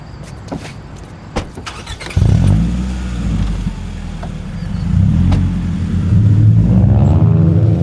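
A car engine starts abruptly after a few sharp knocks and keeps running with a low, steady rumble that swells slightly louder, as two gang members leave a house, get into the car and drive off.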